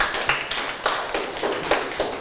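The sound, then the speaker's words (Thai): Children in class clapping for a classmate, a run of claps falling on a regular, even beat, moderately quiet over a light background hiss. “เอาปรบมือให้เพื่อนนะครับ”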